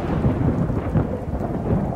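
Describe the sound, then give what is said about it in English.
Distant thunder rumbling during a storm: a low, continuous rolling roar that swells and eases several times over two seconds, fairly loud, with no voices. “Distant thunder rumbled as she burrowed deeper under the sheets.”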